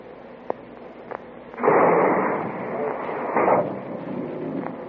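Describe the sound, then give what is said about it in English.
Submarine torpedoes are fired. Two faint clicks come first, then a loud rushing whoosh of expelled air for about a second, and a second surge of rushing noise follows roughly two seconds later. “Mark torpedo, fire one. Fire two.”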